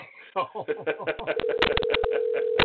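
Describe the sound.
A telephone voicemail signal sounds during a phone call: a steady electronic tone holds under a man's talking voice and ends in a short beep.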